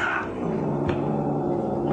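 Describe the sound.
Cat fight sound effect: continuous yowling and growling for about two seconds, loud and sustained, with no voices.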